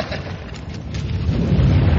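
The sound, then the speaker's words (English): A wall gives way in a radio-drama sound effect, a continuous low rumbling roar with gritty crumbling noise that grows heavier over two seconds. “The wall's giving way. Get under the opening.”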